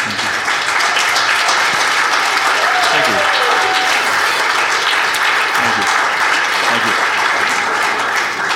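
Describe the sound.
Loud, continuous audience applause at Gateway welcomes a returning guest speaker. An even, unbroken roar of clapping holds at full strength from start to finish.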